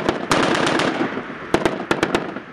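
Machine-gun and weapons fire from commando troops on a light and heavy weapons exercise in a mountainous area. A rapid, loud stretch of shots rattles first, then a few separate sharp reports crack out after a short lull.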